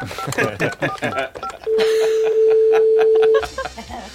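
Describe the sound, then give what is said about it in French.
A telephone call rings once, a long steady tone held for nearly two seconds, with talk before it and voices continuing around it. “Vous pouvez composer le numéro du paradis, s'il vous plaît? Ça sonne.”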